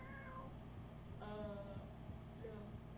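A cat meows three times, faint, short, tonal cries spaced across a few seconds over a low steady hum.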